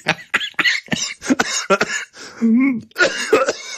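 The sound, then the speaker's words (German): Harsh coughing and throat clearing after choking on something swallowed, with many rough bursts coming in quick succession and a strained, drawn-out vocal sound partway through. “Das habe ich verdient. Ich habe mich verschluckt.”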